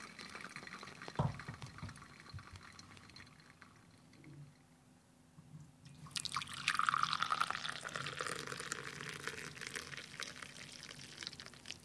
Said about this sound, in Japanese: そして円を描くように静かにお湯を注ぎます。